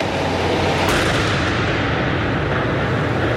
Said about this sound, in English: The bomb squad detonated the backpacks as a precaution.